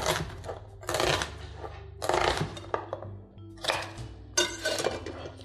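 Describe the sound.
A knife cuts through fresh vegetables on a board, giving a few crisp, crunchy bursts separated by short pauses, with light clicks and knocks in between over a low, steady hum.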